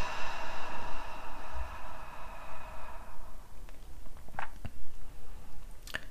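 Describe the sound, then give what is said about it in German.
Slow breathing in through the nose and out through the mouth during a guided breathing exercise, a soft airy rush of breath, fuller at first and then quieter, with faint clicks. “Noch einmal durch die Nase ein. Und durch den Mund aus.”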